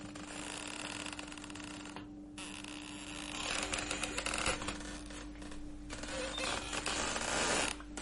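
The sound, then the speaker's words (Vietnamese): Creaking of an unlatched wooden door being pushed open into a dark village house: a sustained, grinding creak that swells and fades over several seconds above a steady low hum, with no voices. “Thầy khẽ đưa tay đẩy nhẹ vào cánh cửa gỗ, bên trong không chốt. Một tiếng kêu ken két vang lên, buốt cả tai.”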